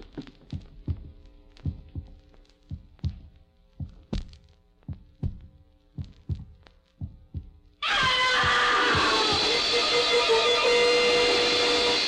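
A heartbeat heard through a stethoscope on a patient close to a coma with a slightly fast pulse: a steady run of many soft, low thumps, then a sudden loud, continuous rushing noise that masks the beats.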